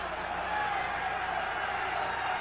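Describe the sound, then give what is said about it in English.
A football crowd at a snowy Three Rivers Stadium roars for the home defense, a faint, steady wash of massed voices with no distinct peaks. “Crowd cheering for the defense to stop them.”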